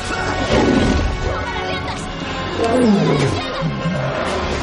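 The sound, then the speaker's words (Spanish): Heavy crashing and rumbling as two giant elephant-like war beasts collide and fall to the ground in a fantasy film battle. The din is dense and loud throughout, with deep roaring cries rising from the continuous noise. “Los dos olifantes caen al suelo.”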